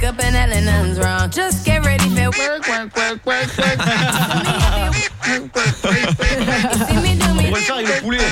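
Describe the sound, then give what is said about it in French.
Squeaking of an inflatable toy chicken: many loud, honking, quack-like squawks crowd together almost without pause, their pitch warbling up and down throughout. “on a des poulets gonflables depuis 3 jours, il arrête pas”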